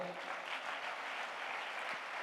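Church audience clapping their hands during a sermon on prayer, a faint, even patter of many hands that carries on steadily without a break.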